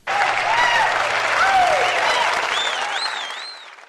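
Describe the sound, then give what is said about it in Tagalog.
Audience applause, a loud, steady burst of clapping that holds evenly and then fades toward the end. “Marami po tayong pag-uusapan ngayon, kaya dapat ay palakpakan muna.”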